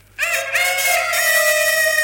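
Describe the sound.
A voice imitates a rooster crowing in one loud, sustained cock-a-doodle-doo call that begins after a moment of quiet and holds to the end, heard alone.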